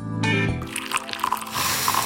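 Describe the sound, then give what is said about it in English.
Coffee poured into a cup makes a wet, trickling pour with squishy drips and splashes. It is fairly loud and follows a brief tonal sound at the start. “Smell that? That's the smell of carefully crafted coffee being poured into your cup”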